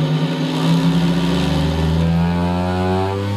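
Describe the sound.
A vibrating seat machine that a woman sits on, with a dial for setting the vibration, is switched on and runs. It gives a loud, steady motor drone with layered humming tones, and the pitch of the hum shifts partway through.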